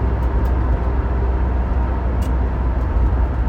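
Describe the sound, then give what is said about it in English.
A car interior while driving, with a steady, constant low road rumble and engine hum that holds even throughout. A few faint clicks sound over it. “I'm driving to my next job site. Driving to a job that I don't particularly like.”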